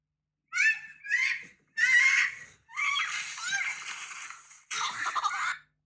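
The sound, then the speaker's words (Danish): Shrill screaming accompanies a sled crash on a steep, snowy hill, with several short bursts of high cries, then a long rough stretch of scraping noise and voices, and a final burst of yelling. “Der bliver skrejet igennem der. Det er lyden af et styrt.”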